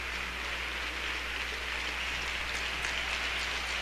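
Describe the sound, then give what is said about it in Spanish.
Applause from a concert audience for a symphony orchestra at the first concert of its 2017 season: a dense, steady wash of clapping that holds at an even level throughout without pauses. “Eduardo García Barrios en el podio, aplaudiendo muy efusivamente el desempeño de la Orquesta Sinfónica de Jalapa.”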